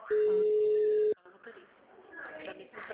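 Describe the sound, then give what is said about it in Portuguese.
A single steady telephone tone sounds as a call drops, holding one even pitch for about a second before cutting off abruptly, after which faint background voices and room noise continue. “Não deu certo a ligação? Caiu a ligação.”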